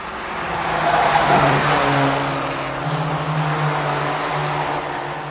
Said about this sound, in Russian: Стремительно несущаяся машина